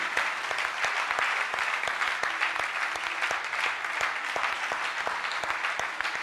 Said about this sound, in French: Kadjo Vincent, je veux que tu acclames Dieu pour sa vie.